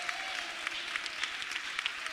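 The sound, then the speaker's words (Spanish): A church audience applauds during a service, producing steady, dense clapping at a fairly low level, with a few sharper claps popping out above the wash. “Démosle un aplauso al Señor, al Dios de gloria.”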